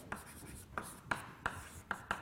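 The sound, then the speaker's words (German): Handwriting scratches out in six short, bright strokes spaced irregularly, each a quick scraping burst with a faint hiss between them. “Okay, jetzt schreiben wir Satz B.”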